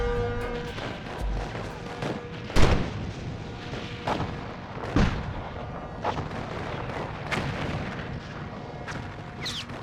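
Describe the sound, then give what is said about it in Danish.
Cannon fire in a sea battle, five English warships firing on one Danish ship: irregular heavy booms, several of them sharp and loud, over a continuous rumbling, crackling barrage. “Det var åndfærdigt fem engelske skibe mod et dansk skib. Men så begyndte de at skyde løs.”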